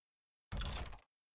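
A door is opened in one short, soft rush of noise lasting about half a second, heard alone against silence.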